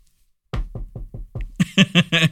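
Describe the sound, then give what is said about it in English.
Knocking on wood: five dull, low knocks in a steady rhythm, then a few brighter, louder raps at the same even pace after a quiet start. “Knock on wood, right?”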